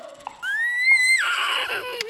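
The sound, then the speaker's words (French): Single horse neigh, a brief, shrill whinny whose pitch climbs, holds high, then drops away at the end. “Il achète un cheval pour aller jusqu'à Paris.”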